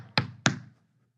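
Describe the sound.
Two sharp knocks on a door, quick raps evenly spaced about a quarter second apart, each with a brief hollow ring, followed by silence.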